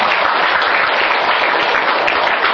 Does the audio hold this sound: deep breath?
no